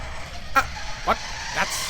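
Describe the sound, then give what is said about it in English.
Three short, nasal honks come from a spaceship hatch, evenly spaced about half a second apart, each a brief goose-like blast over a low, steady background. “why is that hatch honking? Oh, I don't know. I don't like the honking hatch.”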